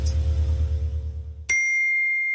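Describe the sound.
A WhatsApp message notification ding rings out as one bright, sustained chime after a low, pulsing rumble stops. It holds steady and clear to the end.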